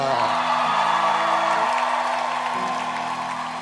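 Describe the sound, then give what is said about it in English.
A church audience shouts and cheers in welcome during a morning service, a steady, dense crowd roar that runs throughout over sustained musical tones. “With joy and gladness, please shout and welcome Ida.”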